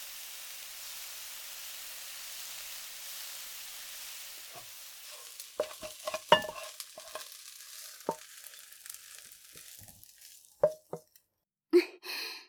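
Yakisoba noodles fry on a griddle with a steady hiss, while stirring adds scraping and clacking that grows busier in the second half, ending in a few sharp metallic knocks.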